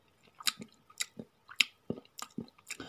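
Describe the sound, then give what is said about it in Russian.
A dragon crunches and chomps while eating a kukubus, a supposedly inedible thing: many irregular crisp crunches and wet smacking chews, faint and alone. “Последние слова были заглушены хрустом и подчавкиванием.”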